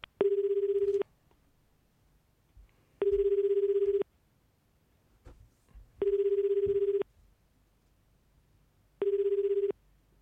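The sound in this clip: A telephone ringing tone plays while a call is placed, four buzzy one-second bursts evenly spaced about three seconds apart, with quiet gaps of faint background noise between them and no talk.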